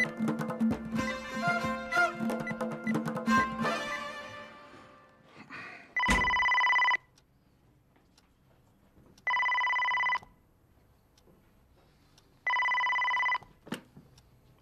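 A telephone rings in three even bursts of about a second each, separated by pauses of a couple of seconds. A stretch of tonal sound comes before the rings, and quiet background follows each ring.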